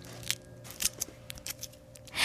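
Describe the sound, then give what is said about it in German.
Thin paper wrapper is peeled carefully off a chocolate surprise egg: faint, sparse crackles and small crinkling snaps, ending in a louder rustle. “So, und jetzt zieh ganz vorsichtig das Papier ab.”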